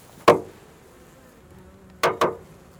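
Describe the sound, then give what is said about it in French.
Knocks on a beehive: three sharp, hollow raps, a single loud one followed after a pause by a quick pair. Between them there is near silence. “Je vais donner un coup sur la ruche, voir comment ils répondent.”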